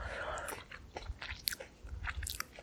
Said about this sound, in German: Diese Blaubeeren, die... Ich esse jetzt mal eine.